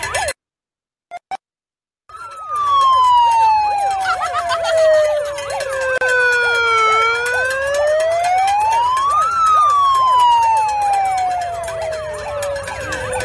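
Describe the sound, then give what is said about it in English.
A siren sound played through a megaphone horn, a loud wailing tone with rich harmonics. After a brief silence it slides slowly downward, swings back up, then falls again, steady and continuous. “That's not a police siren, it's a siren on their horn. Your megaphone is inferior to mine.”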